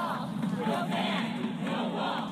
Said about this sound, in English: That was the sound of hundreds of demonstrators gathering Sunday near the White House at airports in New York, Washington, and San Francisco, as well as other large cities.